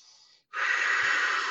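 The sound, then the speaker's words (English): Intense, focused breathing from a breathing exercise: a short breath, a brief pause, then a long, loud, forceful breath blown out steadily. No talking. “I take a full breath and it's a big long breath. And then I blow it out. And then each breath gets more intense and more focused.”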